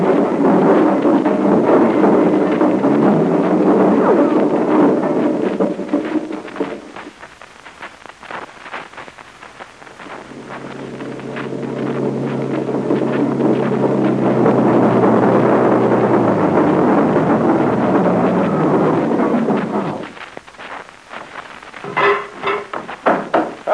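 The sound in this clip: A car takes off at speed with a loud, sustained rush of wind and engine roar that dips briefly midway, then surges back and ends in a few sharp crackles.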